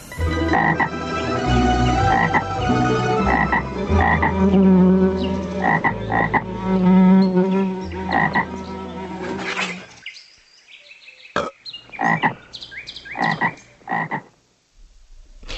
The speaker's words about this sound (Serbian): Kažu da je oglašavanje žaba siguran znak da je počelo proleće, odnosno da se zima neće vraćati.